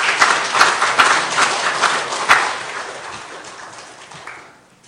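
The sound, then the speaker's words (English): Audience applause welcoming a guest to the stage: dense, steady clapping that holds strong for a couple of seconds, then gradually thins and fades away toward the end. “Give him a hand.”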